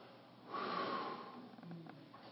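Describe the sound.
A voice imitates a breath being blown out: one long, breathy exhale swells and fades over about a second, then quieter breath noise trails off, with no words.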